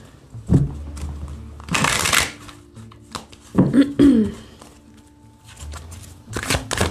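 Tarot cards being shuffled by hand, heard as a few dry, papery riffling bursts separated by short pauses, fairly loud and with no voices over them.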